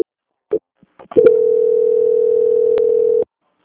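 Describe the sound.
Telephone tone during a call transfer: a few faint clicks, then one loud, steady mid-pitched tone holding for about two seconds before cutting off abruptly.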